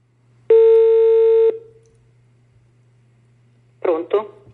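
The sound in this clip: A telephone being dialled: a steady tone lasting about a second, then a pause over faint low hum, then two short clustered tone bursts.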